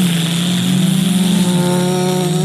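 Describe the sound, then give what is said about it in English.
A voice imitates a Sea-Doo jet ski engine revving: a continuous buzzy, droning hum that holds a fairly steady pitch, swelling slightly in the middle, with no other sounds. “Cranking up a Sea-Doo and being like,”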